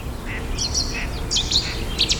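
Birdsong from a Cetti's warbler and a great tit: a few short bursts of high, bright chirps and trills rise above a low, steady background hiss.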